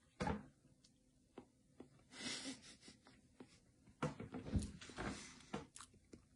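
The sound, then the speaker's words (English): Someone chews a barbecue-flavoured Vienna sausage with a soft, mushy casing during a taste test. The quiet, irregular wet mouth sounds and sniffs come in short bursts, with no talking. “Here we go, taste test. Vienna sausage, barbecue.”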